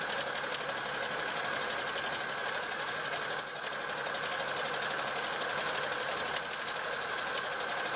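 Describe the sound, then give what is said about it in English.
A sewing machine stitches steadily through many thick layers of fabric where seams meet, giving a continuous fast whirring, rattling hum that stays even and fairly loud throughout. “Quite a few layers of fabric we're going through at this point, so if your machine's not up to it, then just take it slowly over the big lumps of fabric, and then around to the lining.”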